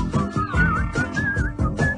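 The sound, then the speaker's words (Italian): Someone whistles a wavering, high melody, fairly soft, over a low rhythmic pulsing background. “Fischia, fischia.”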